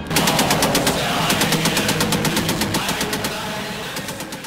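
A machine gun fires long, loud, rapid bursts of sharply repeating shots in a steady, even rhythm. The firing continues throughout and eases only slightly toward the end.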